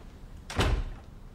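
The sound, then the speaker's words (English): A suite door opens with a single short, soft thud over faint background hiss, with no voices. “He puts the revolver in his robe pocket, then opens the door.”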